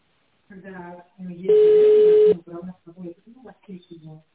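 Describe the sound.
An outgoing telephone call gives one steady, loud ringing tone lasting under a second, with a person talking before, during and after it.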